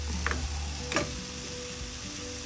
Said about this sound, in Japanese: あそうだマシュマロフライパンで焼かない方が良かったかな